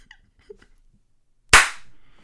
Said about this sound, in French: Tape des mains.